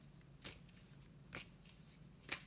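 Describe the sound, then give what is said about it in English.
A card drawn from a deck, heard as three brief, faint papery swishes spaced apart, with nothing else around them. “Okay, so let's get a first card here while I'm blabbing.”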